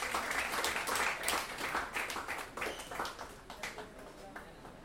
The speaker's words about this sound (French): On applaudit très fort.